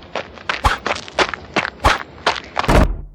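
Several people run away on foot, their footsteps landing as many quick, heavy thuds in a rapid, slightly uneven rhythm that holds steady and loud throughout, with no talking.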